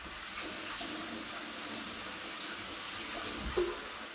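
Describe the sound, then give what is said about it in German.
Water runs steadily from a tap while hands are washed mid-cooking, giving an even rushing hiss throughout with a brief, slightly louder splash toward the end. “So, Hände waschen, zwischendrin nicht vergessen”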